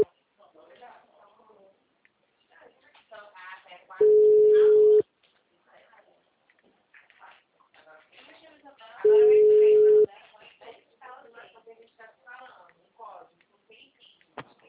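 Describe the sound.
Telephone ringing tone while a call is being placed: two steady one-second low beeps about five seconds apart, loud against the quieter talk of a person speaking before, between and after them.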